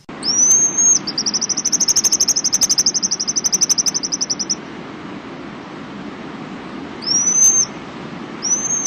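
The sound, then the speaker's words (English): Pigeon guillemot giving a high, thin, whistled trill of rapid even pulses, framed by a few short upslurred whistles before and after, over a low steady background rumble. “That sound is a pigeon guillemot.”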